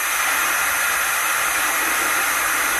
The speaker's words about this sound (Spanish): Muy bien, bueno, pues dejamos el sonido de la olla express